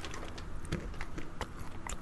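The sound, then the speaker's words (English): Crunchy roasted chickpeas being bitten and chewed, giving many sharp, crackly crunches at an uneven rhythm, fairly faint and alone. “Taste one now. We'll just taste chickpea tasting live on air.”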